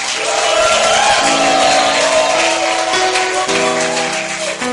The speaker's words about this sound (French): Est-ce qu'on peut acclamer le Seigneur, pousser un cri de joie?